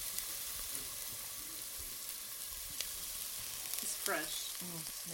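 Chopped fresh dill sizzles in a frying pan with chopped onion for a green rice dish, a steady, fairly faint hiss of frying with a few light stirring clatters.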